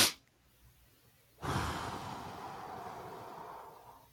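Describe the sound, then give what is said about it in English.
A long breath out through the mouth during a calming breathing exercise, a soft airy rush that begins abruptly after a short quiet stretch and fades gradually over several seconds. “and then I breathe out with a long exhalation through my mouth. You do it again.”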